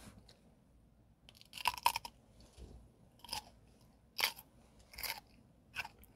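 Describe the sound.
Crisp chewing and crunching of cucumber in a guess-the-food-by-sound game, heard as several sharp, wet crunch bursts at irregular intervals between quieter moments, with no talk.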